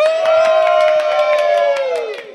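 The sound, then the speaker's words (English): A live audience at OrcCon 2024 at the LAX Hilton cheers and claps, with one loud sustained whoop that holds steady and then sinks in pitch as the noise fades. “this is our live studio audience.”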